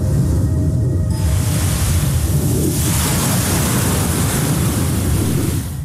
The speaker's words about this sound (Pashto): د شمال له پښه او د څپو له څړپه پرته ژغ ژغ نه و.